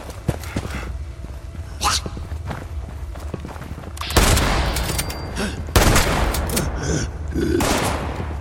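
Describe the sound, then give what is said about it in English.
Gunfire in a video game: several sharp, loud shots cut through a dense, busy layer of game noise, with the strongest blasts coming in the second half. “So, some shooting going on in there. What's all the shooting?”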